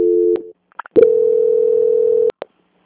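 Telephone tones during a call transfer to a bank's quality-control line: a short steady tone, a few clicks, then one long, loud, even tone lasting over a second, ending with another click.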